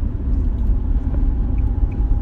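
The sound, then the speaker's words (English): Steady low road rumble from inside a moving car, a continuous dense drone with no distinct events and no voices. “I'm out in the car on the way to the medical center”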